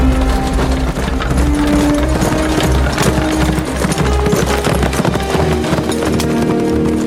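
Rapid clip-clop of horse hooves as a horse-drawn wagon is driven fast: many quick, loud hoofbeats roll continuously without pause, dense and steady throughout.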